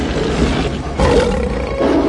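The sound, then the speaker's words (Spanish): Two lions roar and snarl as they fight, a dense, gritty, continuous growl that swells louder about halfway through and keeps going without pause. “Sobre el fondo de llamas, los dos leones saltan fieros y poderosos, con sus garras preparadas y mostrando sus colmillos.”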